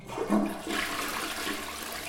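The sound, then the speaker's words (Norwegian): A toilet flushes with a rushing, gurgling surge of water that peaks early, then settles into a steady wash for the rest of the two seconds, with no voices. “Kjetil Rekdal, han satt på do noen timer før kampstart”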